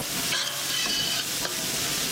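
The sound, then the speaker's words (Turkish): Chopped onion and garlic sauté in butter in a pot, giving a steady, bright sizzle with a few brief stirring scrapes mixed in. “Doğradıktan sonra soğanı, sarımsağı tenceremize alıyoruz. Tereyağı ile beraber kavuruyoruz.”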